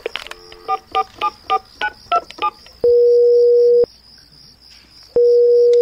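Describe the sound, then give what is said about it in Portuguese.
Telephone keypad tones as a number is dialed late at night: a quick, even run of short, bright beeps, then two long, steady ringing tones separated by a silent gap. No voices are heard. “deixa eu ligar pra Sileide”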